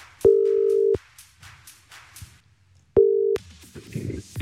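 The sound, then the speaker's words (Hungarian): Telephone ringback tones sound as a call is dialed to a radio game winner, two steady mid-pitched tones separated by a pause, with faint soft sounds between them. “Most pedig én hívok valakit, a játékunk nyertesét, aki elsőként küldött nekünk üzenetet a játék felhívás után”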